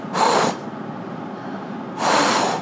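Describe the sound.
A person imitates a buck deer blowing: two long, deep, hissing exhalations of breath, each loud and drawn out, separated by a quiet pause.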